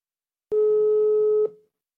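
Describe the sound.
A single steady telephone line tone sounds while a call is placed to a legislator's phone, a clear, even hum lasting about a second, starting and stopping abruptly with no voices over it.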